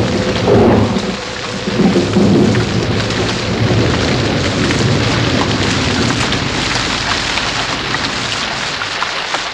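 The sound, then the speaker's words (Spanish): Steady, loud rain falls during a storm as a radio drama effect, a dense, continuous hiss of drops with no voices. “Justo entonces, comenzó a llover, y la brisa se aletargó sobre su espalda.”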